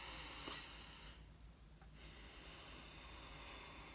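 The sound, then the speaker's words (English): Slow, deep breaths are drawn in and pushed out through the nose to demonstrate relaxation breathing. Each soft, airy hiss swells and fades at a quiet, unhurried pace. “You take 5 to 10 deep, slow breaths in and out through the nose like this.”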